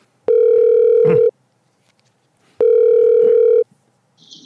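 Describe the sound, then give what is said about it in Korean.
Telephone ringback tone at the start of a phone interview: two steady, evenly pitched electronic tones of about one second each, separated by a silent gap of over a second. “김동진 선수와 지금부터 폰터뷰 나눠보겠습니다”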